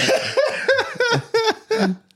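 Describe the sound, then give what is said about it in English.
Coughing with a voiced, laugh-like quality comes in five quick bursts, fairly loud and with no talk. “I'm trying not to laugh so I don't cough too much.”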